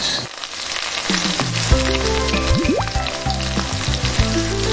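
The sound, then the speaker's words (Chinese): Pork pieces for sweet-and-sour crispy pork sizzle loudly in hot oil during a short second deep-fry, a dense, continuous crackle with a few brief whistling tones rising through it. “这个复炸咱不要炸太久，炸差不多30-40秒，一分钟就顶够了。我觉得差不多了啊。嗯，听出来这个声音啊。”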